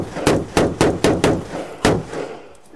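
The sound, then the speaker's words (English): Rifle shots from soldiers firing at targets in a mock village during a training exercise: six loud, sharp reports, five in quick succession and one more after a short pause, each with a brief decaying tail. “In this exercise, soldiers shoot at targets inside a mock village with both their rifles and their Nikons, and we're all wearing earplugs.”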